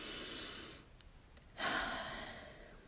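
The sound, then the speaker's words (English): Deep breathing during a body-gratitude meditation, soft and quiet. A hushed breath, then a brief pause broken by a small click, then a fuller, louder breath that gradually eases off. “Big deep breath there.”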